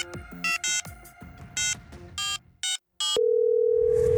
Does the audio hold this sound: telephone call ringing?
yes